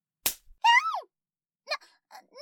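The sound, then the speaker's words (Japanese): A hand slaps someone's buttocks with a single sharp smack, followed by a short vocal cry and a few brief vocal sounds after a pause. “なんじゃお主、何をするのだ！わらわのお尻を叩くなど”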